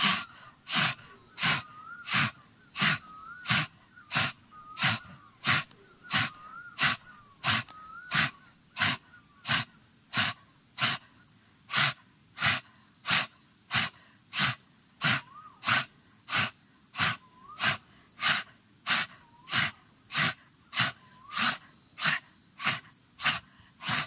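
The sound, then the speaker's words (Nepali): Pranayama breathing in and out through an open mouth: many quick, forceful breaths in a steady, even rhythm, each a breathy rush of air that repeats without pause for the whole stretch, fairly loud and with no talk. “मुखलाई खोल्नुहोस्, सास तान्दै फाल्दै, तान्दै फाल्दै,”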